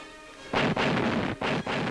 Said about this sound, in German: Die schweren Küstengeschütze eröffnen auf 500 Meter Entfernung das Feuer.